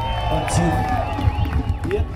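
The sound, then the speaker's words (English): A crowd cheers and shouts at the 49th annual Chicano Park Day gathering in San Diego, a loud, continuous roar of voices with clapping mixed in. “I went down to San Diego to the 49th annual Chicano Park Day. Chicano Park Day. It's this big Chicano gathering at this very important park for the Chicano rights movement.”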